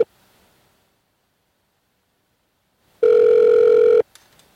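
Telephone ringback on an outgoing call: after near silence, a single loud, steady tone sounds for about one second and stops abruptly, followed by faint clicks.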